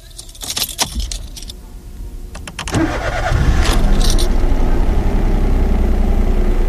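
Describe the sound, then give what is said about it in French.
A car starts up after a quick jingle of keys and a few clicks. The engine then settles into a steady, loud run on the drive through the Breton marshland toward a museum. “il faut rouler quelques kilomètres, direction l'écomusée, le Davio, à la barre de Mont.”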